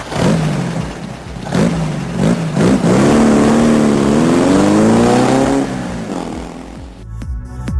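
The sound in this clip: A motorcycle engine revs hard, loud and sustained, its pitch wavering and climbing through the middle before the roar cuts off abruptly, leaving a few faint clicks.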